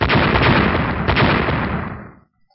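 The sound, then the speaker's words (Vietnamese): Explosive blasts slam against a glowing protective barrier of light, a loud, dense crackling burst that holds for about two seconds and then quickly dies away to silence. “Ba tiếng nổ vang lên, trên màn hào quang có thanh âm bộc phát ra, rồi tiếp theo là một tiếng vỡ giòn tan.”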